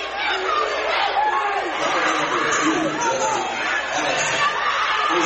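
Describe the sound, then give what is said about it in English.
A basketball crowd of Tiger fans reacts to a blocking foul call. A dense, continuous murmur of many voices holds steady in loudness, with no single shout standing out. “Tiger crowd here not happy about that one.”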